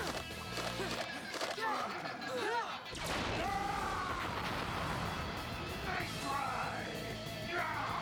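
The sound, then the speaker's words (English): Zeo laser pistols fire in a rapid barrage of sci-fi zaps with sweeping, warbling chirps, layered over a dense, continuous din of blasts and crashes. “Man, nothing we do even scratches this guy. Something's different. Yeah, let's try the Zeo laser pistols.”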